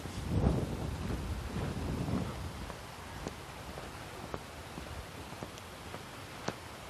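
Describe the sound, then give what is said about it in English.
Wind gusting outdoors along a street among houses: a low buffeting rumble for the first couple of seconds that settles into a fainter, steadier rush dotted with a few small clicks. “Oh, there, I step out into the street where there's not quite as much wind baffle effect from the houses. Wind's coming out of the, northeast.”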